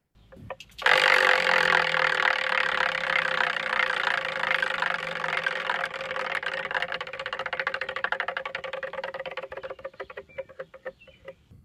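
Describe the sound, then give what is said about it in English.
A prize wheel is spun, starting with a sudden whir that becomes a fast, dense run of ticking clicks. The clicks hold steady for several seconds, then slow into more widely spaced ticks toward the end, with no voices. “Let's go ahead and spin that wheel.”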